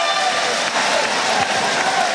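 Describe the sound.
Basketball crowd cheering and applauding at a women's game: a continuous dense roar of clapping and crowd voices at an even, loud level throughout.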